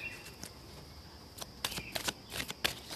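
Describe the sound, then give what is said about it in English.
Cards being shuffled and pulled from a deck during a card reading: soft papery riffling broken by several crisp snaps and flicks, faint and without talk. “so right now I'm going to pull some cards so that we get the message from the past.”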